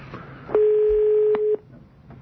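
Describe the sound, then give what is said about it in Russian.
Telephone line tone as a listener's call connects on a radio call-in show: a steady, level tone holds for about a second, framed by short clicks at its start and end. “Давайте еще звонок послушаем.”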